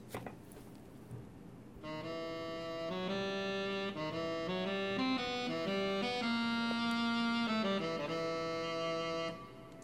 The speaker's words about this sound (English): So there's a lot of data just in this 8 seconds of music. We play that music. It sounds like this.